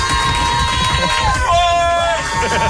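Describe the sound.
A live evening show audience shouts and cheers in a loud, continuous roar of many voices, with a few shrill cries rising above the crowd.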